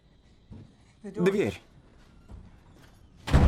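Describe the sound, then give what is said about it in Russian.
Dull thuds from a stuck door being forced as someone tries to open it from inside a room: a few low, spaced knocks ending in a louder, harsher bang, with a voice heard briefly between them. “Дверь. Застряла.”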